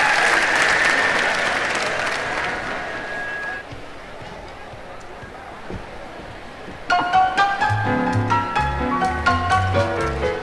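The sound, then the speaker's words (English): An audience applauds at a 1964 square dance jubilee in Houston, Texas: steady, dense clapping that eases slightly, then continues as instrumental music starts up in the later part. “Andy Andrus, let's give him a great big hand. Make him feel real welcome here, huh?”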